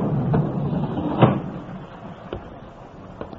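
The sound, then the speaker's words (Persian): A door shuts with a single dull thump over a steady background hiss, followed by a couple of fainter, brief clicks. “در رو ببند”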